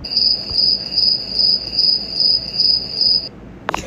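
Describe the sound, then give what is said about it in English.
Crickets chirp in a shrill, high-pitched trill that pulses in regular bursts about twice a second. No voices are heard, and the chirping stops shortly before the end. “crickets on my end”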